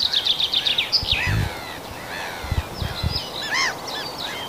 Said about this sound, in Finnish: Ja siellä kirjosieppo kuului tuossa peipon lomassa.